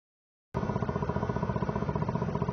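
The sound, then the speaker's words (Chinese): A motorcycle rides by, recorded on a car's dashcam. The engine's steady, rhythmic throbbing starts abruptly and holds an even tone throughout, with no voices. “倒边这台机车看看骑过来，伊后面是载什么物件？”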